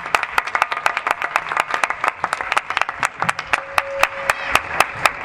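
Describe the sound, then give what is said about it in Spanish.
An audience welcoming a speaker at an anniversary celebration in Zaragoza with applause: many crisp, separate claps in an uneven patter, loud and standing alone without talk. “Nos apetece mucho escuchar a Yayo Herrero, así que bueno, la recibimos con un fuerte aplauso”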